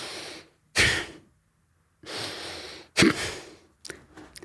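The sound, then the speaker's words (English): Energizing breathing exercise with short, deep inhales and sharp exhales, heard as several loud, rushing breath bursts separated by brief pauses and ending in a choppy, broken breath. “they use a short, deep inhale of about 3 and a short, sharp exhale of about 1 or 2, with perhaps a mini pause before they inhale again,”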